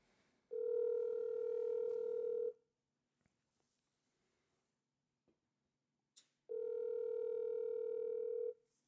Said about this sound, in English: All right, you know what? Let's go ahead and give her a call.